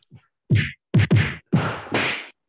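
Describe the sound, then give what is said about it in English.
Fight sound effects from an action movie: heavy punching whacks with swishing edges. A faint tap comes first, then five loud blows in quick, uneven succession, with no voices. “Are you going to do it like a fight sound effect? Do they sound like this?”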